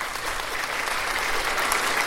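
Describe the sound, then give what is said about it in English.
Dense applause from many hands clapping, with steady crackling clapping that holds an even loudness for the whole clip and no clear cheering on top. “let's give him a mighty cheer. Let's give him a hand clap.”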